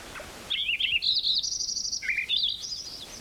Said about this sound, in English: 56, Wilson's Warbler.